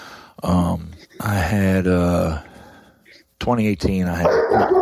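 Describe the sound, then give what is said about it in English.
Dog barking while mail is being delivered: a few loud, drawn-out barks and whines in bursts, broken by short pauses and mixed with speech. “That was my dog.”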